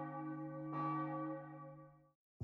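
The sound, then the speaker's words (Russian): A bell tolls with deep, resonant strikes. Each ringing tone hangs and slowly fades before the next strike starts. “Колокол звонит.”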